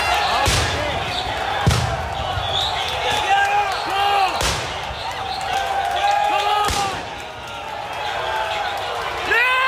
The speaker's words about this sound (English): downtown Portland echoed with flashbangs and smoke bombs thrown by police during a protest by two right-wing groups and counter-protesters.